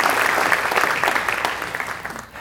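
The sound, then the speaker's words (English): Church audience applause welcomes a speaker to the stage, steady dense clapping throughout that thins slightly toward the end. “Come on, let's give Valerie a hand. Come on up.”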